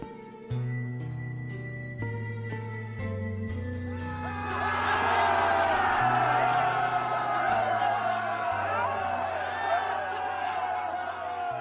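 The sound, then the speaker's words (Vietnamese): Crowd cheering and shouting: a dense, loud roar swells in after about four seconds and holds to the end over steady, low sustained tones that step in pitch. “Tiếng hò reo của đám người”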